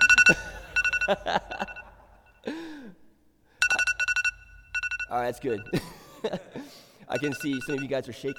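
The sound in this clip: An iPhone alarm ringtone sounds in repeated bursts of bright, plinking tones that start and stop, with people talking in between and over the quieter stretches.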